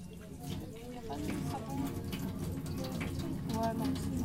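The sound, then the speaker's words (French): Water runs steadily from a tap while a baby is being washed, making a continuous rushing splash under a person's talking. “Donc pour laver l'enfant, on fait attention à l'eau, que ça soit pas trop chaud ni trop froid. Donc on teste avant un peu s'il faut. Voilà. On mouille le.”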